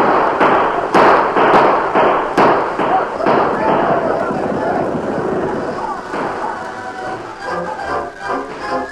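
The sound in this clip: Gunshots fired at stampeding cattle in a radio drama: several sharp cracks in the first few seconds over a dense, rumbling noise, with voices heard.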